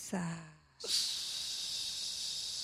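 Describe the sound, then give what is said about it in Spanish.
Deep inhalation during a guided breathing exercise, a long, steady airy hiss lasting about two seconds, following a brief spoken voice at the start. “Una vez más. Inhala. Llévalo hasta abajo el aire, hasta abdomen.”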